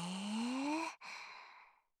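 Deep breathing during a guided breathing exercise: a long breath with a faint voiced tone that rises in pitch, a brief break, then a second breathy breath that slowly fades out.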